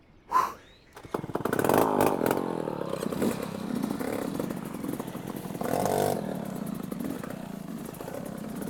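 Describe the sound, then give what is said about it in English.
A two-stroke motorbike with a worn tire runs during a race while stuck unable to change gear, its raspy, buzzing engine droning loudly and steadily after a sharp initial pop, with a brief rev surge partway through. “I'm not even sure if this bike will make it. Can't even change gear.”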